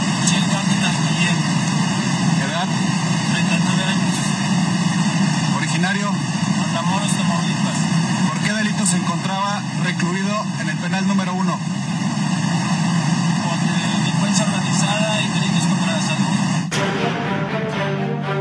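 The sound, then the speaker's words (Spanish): Aircraft cabin noise during a flight carrying a deported prisoner: a constant, dense engine drone with steady humming tones, with a voice speaking over it. “Esto declaraba en el avión que lo trasladaba al vecino país.”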